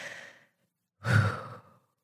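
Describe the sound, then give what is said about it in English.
A deep breath taken during a guided pause to clear the head: two breathy sighs, the first fading quickly, then a longer, louder rush of air that tapers off, with silence around them and no talking. “isn't it amazing how refreshing a deep breath can be? Let's actually do that again.”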